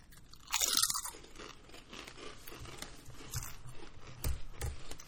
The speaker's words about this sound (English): These are the sour cream and onion flavor, which miraculously don't actually have any dairy in them. They're totally so vegan. So we're all gonna take a little chippy.